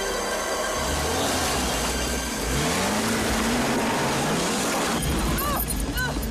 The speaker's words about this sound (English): Kate drives right into the woods, searching for Phil.